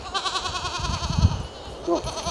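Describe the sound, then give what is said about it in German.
Goats bleat on a goat farm whose herd was culled over foot-and-mouth disease. A long, tremulous, wavering bleat comes first, then a shorter bleat near the end, over faint background noise. “Seit kurzem leben wieder Tiere auf dem Ziegenhof von Jürgen Teut in Schöneiche.”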